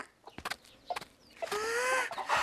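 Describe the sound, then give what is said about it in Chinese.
A hen clucking after laying an egg: a few short, sharp clucks, then a longer, drawn-out, tonal cackle that holds to the end, fairly faint and with no voices. “下蛋蛋了，下蛋蛋了！”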